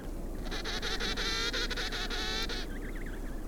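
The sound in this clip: An emperor penguin calls with a quiet, nasal, harmonic bray held for about two seconds over faint background hiss, then trails off into a brief wavering warble.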